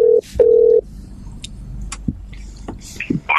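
Telephone ring tone on a call-in line: two steady, mid-pitched tone bursts, a short one then a longer one, followed by quieter line noise and a few scattered clicks.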